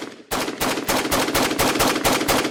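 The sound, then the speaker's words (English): Gunfire from an AR-15 semi-automatic rifle, an untraceable ghost gun with no serial number: a fast, evenly paced string of many loud, sharp shots after a moment of quiet. “This is what some people call a ghost gun. It's an AR-15 semi-automatic rifle that has no serial number.”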